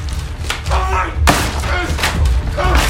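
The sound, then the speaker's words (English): Heavy thud of an axe striking down on a wooden dresser: one sharp, loud blow cuts through a dense, continuous layer of sound. “Brad knocks over a dresser and swings the axe down on it.”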